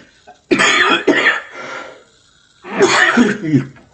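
A man coughing and clearing his throat after getting choked up while reading scripture aloud: loud, harsh coughs in two short clusters separated by a brief pause.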